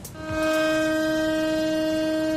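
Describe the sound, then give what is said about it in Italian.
A memorial siren sounds across Israel for a minute of silence on the 7 October commemoration. A steady, unwavering tone swells in quickly and then holds loud and constant. “Una sirena, un minuto di silenzio, l'intero paese si è fermato.”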